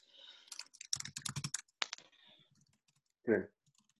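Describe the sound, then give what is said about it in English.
Computer keyboard typing while notes are written: a quick run of clicking keystrokes, then scattered lighter taps and a single louder knock. “I'm gonna write some logisticals.”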